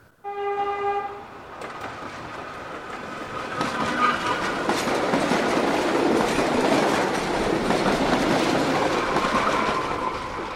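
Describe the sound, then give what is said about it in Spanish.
A fast train moving at over 200 km/h rushes past on rails. A brief harmonic horn blast opens, then a loud, steady roar of wheels and rushing air holds to the end. “Los trenes más rápidos del mundo están en China, Italia, Francia, Japón, España, Taiwán,”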